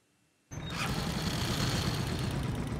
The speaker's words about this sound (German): Dieses Bike hat schon so einiges mitgemacht, ein sogenanntes Monsterbike. Es hat schwer zu tragen und ist für Strecken gebaut, auf denen kein Auto mehr durchkommt.